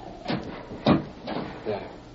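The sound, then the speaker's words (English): A house door is pulled shut on a windy night, giving a few soft, muffled knocks and thuds spaced across a couple of seconds, all fairly faint. “Wait till I close this door.”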